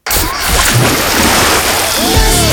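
Splashing water wave sound effect: a loud, continuous surging wash of water with sloshing, steady throughout without a break.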